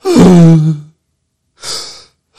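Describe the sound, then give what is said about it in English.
Deep breathing into the bottom of the lungs: a long, voiced, sighing exhale, then a pause and a softer breathy rush of air, with the start of another breath at the end. “Just breathing into the bottom of your lungs.”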